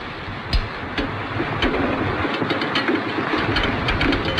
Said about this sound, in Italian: Sta arrivando il direttissimo. Lo sento.